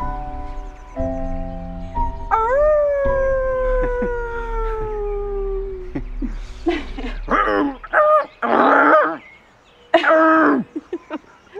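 A person vocally imitating a bear, starting with a long, drawn-out howling cry that slowly falls in pitch, followed by a string of rough, breathy growling bursts, loud and with no other sounds.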